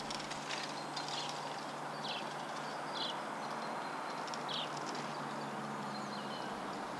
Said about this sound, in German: Wir sind am Bahnhof in Kreuzberg.